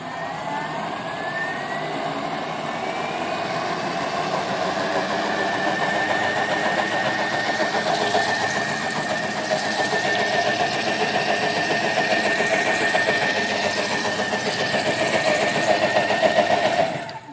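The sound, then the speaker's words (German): A blender mixing green vegetable soup, its motor running as a loud, steady, high whirring drone that holds evenly for about seventeen seconds before cutting off abruptly. “So, also nochmal mixen, wird ein bisschen laut.”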